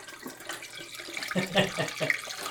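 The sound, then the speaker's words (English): Water running from a tap during washing, a fairly quiet, continuous hiss and splash that rises slightly midway and then settles back. “I need to wash. So if you want to talk right now while I'm washing, that would be fantastic.”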